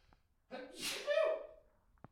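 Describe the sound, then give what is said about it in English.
A single sneeze, a short sharp intake of breath followed by a bursting, breathy expulsion, fairly quiet and heard alone. “I've got to sneeze.”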